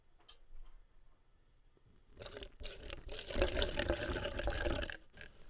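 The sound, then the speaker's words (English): Fine French cognac poured into a cup: a steady splashing trickle begins after about two seconds of near quiet, grows louder and fuller, then tails off near the end. “is me pouring some fine French cognac into my cup. I'm going to pour it back in so I can share it with my friends. But just so you could hear it, I'm going to pour it right now.”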